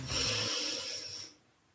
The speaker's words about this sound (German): Einmal ganz tief durch die Nase einatmen.